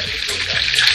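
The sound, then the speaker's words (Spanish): Empanadas frying give off a steady, bright sizzling hiss that stays fairly constant in level throughout. “Está friendo algo, ¿no? Las empanaditas que hace él.”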